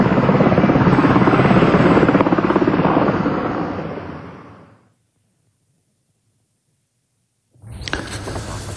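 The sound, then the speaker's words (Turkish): Helicopters flying during wildfire firefighting operations in Aydın, a loud throbbing rotor roar that fades away over several seconds into silence. A burst of noise returns near the end. “Günün aydınlanmasıyla birlikte hava araçları yeniden peş peşe havalandı. Uçaklar ve helikopterler sortilerini sürdürdü.”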